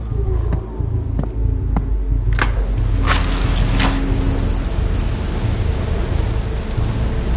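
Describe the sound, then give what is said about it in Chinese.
Steady wind and rain outside a window, a dense unbroken hiss with a low rumble underneath and a few faint ticks early on, holding at an even loudness throughout. “而且外面刮风下雨”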